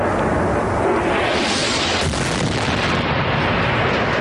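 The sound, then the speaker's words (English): Incoming artillery rocket fire pounds city neighborhoods of Homs, including Baba Amr, as a continuous, loud, rumbling roar with one sharper burst near the middle. “Incoming artillery rocket fire in several city neighborhoods, especially Baba Amr, where this video was taken today.”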